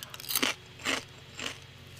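Three distinct crisp crunches come from someone biting and chewing potato chips. They are evenly spaced and fairly quiet, with no talk.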